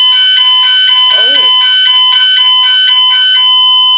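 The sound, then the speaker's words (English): A fire alarm test: a loud, shrill electronic alarm blaring in rapid repeating pulses throughout, with a brief voice faintly underneath. “That was our fire alarm test. That wasn't so painful, was it? Hopefully that didn't blow out your eardrum. That'll be a little quick, loud one.”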